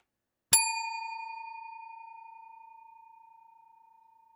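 A single bell strike rings out with a clear, pure mid-pitched tone, starting sharply and then decaying slowly and smoothly for several seconds in otherwise silent surroundings.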